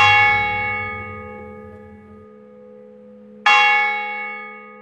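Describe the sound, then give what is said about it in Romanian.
A church bell rings in the neighbourhood after midnight, two slow, resonant strokes, each leaving a long, humming ring that fades gradually before the next strike. “Unul după miezul nopții sună rar în vecinătate.”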